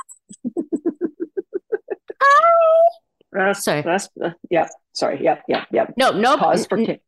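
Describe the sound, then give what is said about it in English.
A cat meows in one drawn-out, falling cry, preceded by a quick run of many short, regular pulses. People talk afterward. “Is that a cat? That's a cat,”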